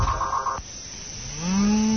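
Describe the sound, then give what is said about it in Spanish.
A cow lowing in a brief, rising, then held moo near the end, preceded by a few short electronic beeps and a low rumble. “¡Dile a que nada, que cierren nomás el portón para que no se arranque la vaca!”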